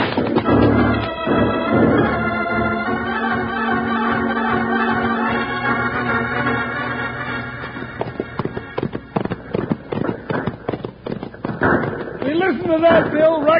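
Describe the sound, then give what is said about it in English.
Rifle gunfire in a radio western drama as outlaws shoot at guards on a wall: a rapid, crackling volley of many sharp shots fills the second half after a stretch of voices. “Unlimber them rifles, you heads, and pick off the guards on that wall.”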